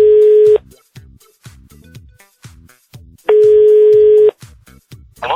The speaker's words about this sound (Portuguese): Vamos lá, ligando! Liga.